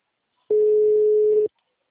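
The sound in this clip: A steady telephone tone sounds while a call is being placed: one unbroken, even-pitched beep lasting about a second, alone and clearly audible, with silence before and after.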